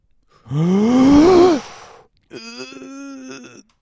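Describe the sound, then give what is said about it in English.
A deep voiced breath drawn in with a rising pitch, then after a short pause a steadier, quieter voiced breath let out, like a heavy sigh. “I need to inhale.”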